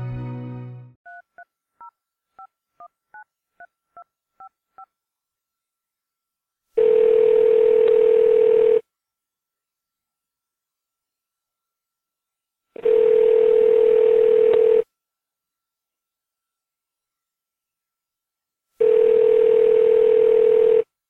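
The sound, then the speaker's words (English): A telephone line is dialed and rings. A short dial tone is followed by a quick series of beeping keypad tones, then three long, evenly spaced ringback tones separated by silence. “you've reached Craft Brewed Sports Drunk Dial line. Feel free to leave us a message”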